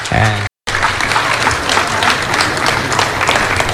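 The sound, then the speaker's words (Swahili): A crowd applauds a central bank governor at an official ceremony after the president hands something over. A voice is heard briefly at the start, then there is a short break, followed by dense, steady clapping that carries on to the end. “makofi yakipigwa kwa gavana wa Benki Kuu Tutuba”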